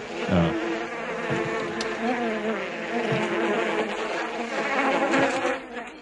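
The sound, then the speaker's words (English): Buzzing of a biting green horse fly, a steady, droning hum that wavers slightly in loudness and runs without a break from start to finish. “No, and that wasn't just the house fly. That was those green flies that bite. Yeah. Horse flies, kind of. Horse flies.”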